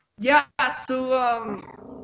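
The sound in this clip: A dog gives a few whining, growling vocal sounds with rising and falling tones, close to the microphone in a home setting.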